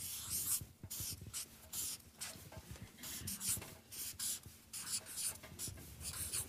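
Writing on a board, made up of many faint, short, scratchy strokes in an uneven rhythm, with brief pauses between bursts.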